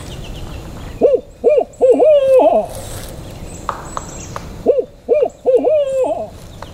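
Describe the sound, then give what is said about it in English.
A person imitates an owl's hoot in the woods to call in woodpeckers. Two phrases of several loud, rhythmic hooting notes are separated by a short pause, with faint high bird chirps in the gap. “So the woodpeckers are sort of filtering through the woods now to get to the sound, and I've got to give another hoot to keep them juiced.”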